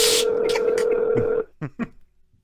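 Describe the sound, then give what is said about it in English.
A telephone call being dialed: a steady electronic tone holds, then cuts off and is followed by a few short tone bursts before the line falls quiet. “so let's call Mr. Ronald Clark”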